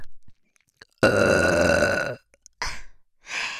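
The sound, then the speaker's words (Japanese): Continuous burping right beside the ear: one long, loud, gurgling burp, then shorter burps in quick succession, with brief silences between them. “耳元からの連続ゲップ”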